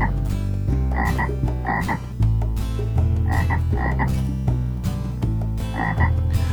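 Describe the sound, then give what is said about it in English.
Frog croaks repeat in a steady rhythm over a bouncy children's song with music, in short croaking clusters again and again throughout. “Little frog, hop, hop, hop. Hop on a log, hop on a log, little frog.”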